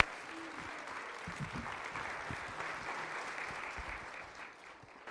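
An audience at a ministry gathering applauds to welcome a pastor, with steady, even clapping that stays fairly faint throughout and tapers slightly at the end.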